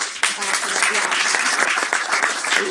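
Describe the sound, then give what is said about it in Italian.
Applause from an audience as people are named one after another; dense, steady clapping fills the entire clip at a fairly loud, even level. “Comunque facciamo l'applauso a tutti.”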